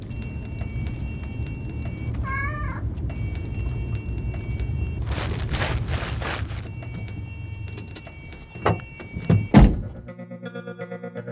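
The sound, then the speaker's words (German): A car door is opened on a snowy winter evening. A low rumble runs under a few heavy thunks near the end, and a soft, buzzing electronic tone follows them. “Er öffnete ihr die Tür und ging dann herum auf die Beifahrerseite.”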